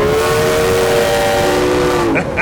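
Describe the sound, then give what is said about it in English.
A steam locomotive whistle, with the boiler at 160 PSI, blows one long, loud, sustained chord-like tone over a steady rushing rumble. Its pitch sags slightly before the whistle cuts off near the end. “Ain't nobody can make music with a whistle like you can.”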